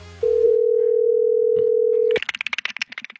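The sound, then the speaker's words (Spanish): A telephone dial tone sounds while a call is placed: a steady, loud, mid-pitched hum holding evenly for about two seconds before cutting off abruptly. “estamos llamando a Rosa Melo a ver si lo quiere recibir en su casa.”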